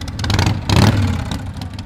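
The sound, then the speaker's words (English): Motorcycles of a riders' group rev their engines in a memorial procession at an airport ceremony: a continuous, loud rumbling drone that surges in a stronger burst midway before settling back to a steady roar. “Members of the Patriot Guard Riders East Central Illinois chapter were on their motorcycles, accompanying the family of Alan Roberts”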